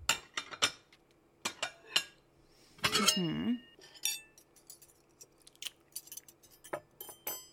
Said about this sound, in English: Okay, I'm gonna grab some bowls for the ice cream.